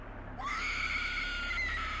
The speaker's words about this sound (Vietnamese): Sau khi tạt phần máu chó mực còn lại lên ngôi mộ, thì một tiếng la thất thanh vang lên.